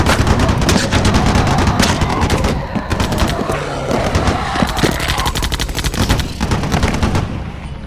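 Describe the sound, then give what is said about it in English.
Sustained automatic gunfire as a group opens fire together, a dense, loud, unbroken clatter of rapid shots with heavy booming low end that runs for the whole clip without pause. “Regardless of whatever they are, they won't be able to move without them. You heard the boss. Open fire!”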